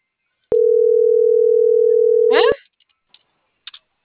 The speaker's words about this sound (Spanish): ya le estoy marcando a Francisco Lince